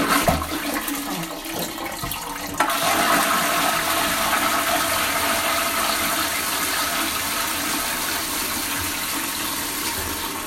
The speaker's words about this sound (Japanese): 流します。